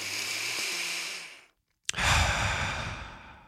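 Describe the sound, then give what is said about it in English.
Deep breathing: one long, airy breath fades out into a brief silence, then a faint click and a second strong, drawn-out breath. “So right now, take a deep breath.”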